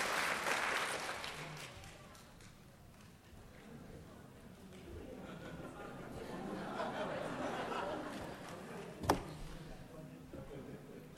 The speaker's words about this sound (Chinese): 让我们再次用掌声恭喜所有的参赛球队，谢谢大家。